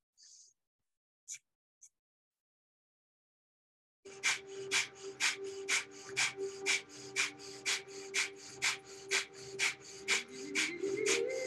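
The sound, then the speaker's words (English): Breath of fire yoga breathing, a rapid, even pulse of many sharp, forceful nasal exhalations in steady rhythm with a low hum beneath, preceded by a few isolated soft sounds and a pause of silence. “In just a moment, we will begin breath of fire, a rapid inhalation, a forceful exhalation for 90 seconds. Begin.”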